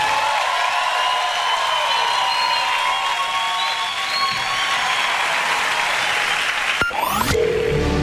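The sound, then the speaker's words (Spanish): A crowd applauds steadily, a dense, even patter of clapping. Near the end a sweeping electronic tone cuts in. “Si ese aplauso es para nosotros, está bien, pero si es para él, tiene que dárselo más fuerte.”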